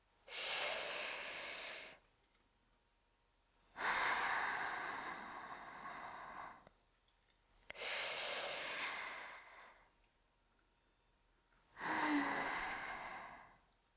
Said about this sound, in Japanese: 深呼吸で、息合わせですよ。